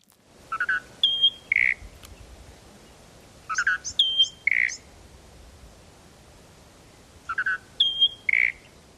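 Calls of the western species of a pair of closely related eastern and western birds come in three short bursts of high, clipped chirps, each burst a few notes long and separated by pauses over faint background noise.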